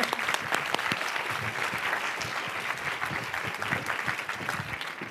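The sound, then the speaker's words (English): An audience applauds to welcome a panel speaker onto a stage. The clapping is loud and sustained, holding steady for the whole stretch. “Please put your hands together and help me welcome Jennifer.”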